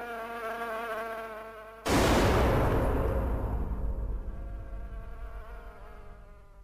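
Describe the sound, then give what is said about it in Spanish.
A housefly buzzes in a steady, droning whine near a bowl of soup. A sudden loud blast then cuts it off and slowly decays. “Ah, aléjate de la sopa, mosca. Vete. Aléjate de la sopa, mosca. Vete.”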